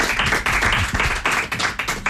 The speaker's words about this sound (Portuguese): na guitarra portuguesa, Rui Pedro, uma salva de palmas para o Rui Pedro.